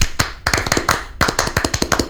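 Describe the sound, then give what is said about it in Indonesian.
A Scout group performs rhythmic Tepuk Pramuka clapping. Many hands strike together in quick patterned bursts, with short pauses between the phrases of the rhythm. “Salam Pramuka. Salam. Tepuk Pramuka.”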